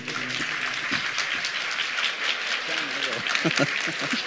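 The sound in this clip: An audience claps in a dense, continuous patter while a voice carries on over the applause.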